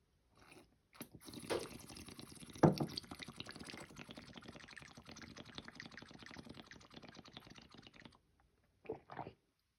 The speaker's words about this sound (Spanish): Ay, no puede ser esta weá tan rica que es tomar agua.